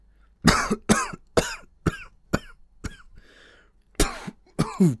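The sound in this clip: A man clears his throat hoarsely in a run of many harsh, rasping coughs in short bursts. A brief, softer noisy sound falls in a pause partway through.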